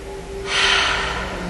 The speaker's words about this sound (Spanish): Entonces es una plena respiración yógica. También podríamos decir que es una plena respiración de la vida,